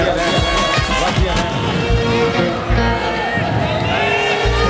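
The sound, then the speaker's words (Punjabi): An audience at a live Punjabi stage show claps loudly and cheers. A dense, continuous wash of applause carries whoops and crowd noise throughout. “ਤਾੜੀ ਮਾਰੋ ਕੁੜੀਆਂ ਦੇ ਨਾਂ ਤੇ ਜ਼ੋਰ ਦੀ”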